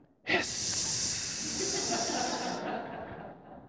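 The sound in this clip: A voice imitates air escaping a tire with one long, steady hiss. It starts abruptly, holds for a couple of seconds and then slowly fades, heard alone.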